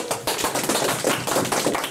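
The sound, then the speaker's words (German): Applause in a studio: dense, steady clapping fills the whole stretch at even loudness, with no voices over it. “Dann gibt es einmal einen Applaus.”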